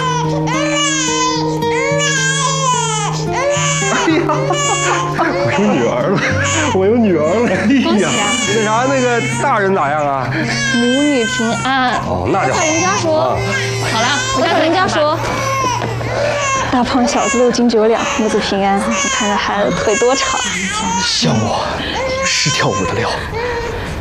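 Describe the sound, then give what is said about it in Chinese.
A newborn baby girl cries just after a long first-time birth, weighing five jin eight liang, with loud, high-pitched wailing cries repeated without pause from start to finish. “哎呀，生了， 是个女孩，五斤八两。”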